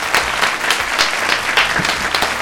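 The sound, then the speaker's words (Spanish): Audience applause greeting a guest onto the set of a Spanish-language studio show: many hands clap in a loud, steady wash with slight pulses and no voices over it. “Un aplauso para él, bienvenido.”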